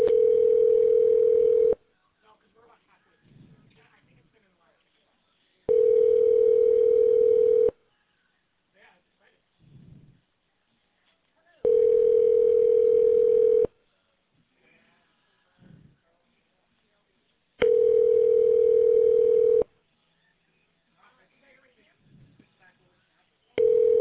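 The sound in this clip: A telephone line rings while a call is transferred, giving four long, steady, mid-pitched ring tones separated by pauses. Faint, low, brief noises fall in the gaps between rings.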